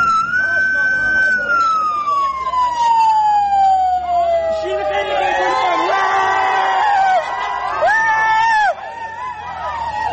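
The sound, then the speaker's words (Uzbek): A loud police car siren wails from a car surrounded by dozens of people, its tone sliding steadily downward as it speeds off, followed by a crowd shouting and cheering with higher yelps. “Tasvirlarda o'nlab odam qurshab olgan IIB mashinasining qattiq signal berayotgani, so'ngra mashinaning katta tezlikda haydab ketilgani hamda odamlarning xursandchilik bilan baqirgani eshitiladi.”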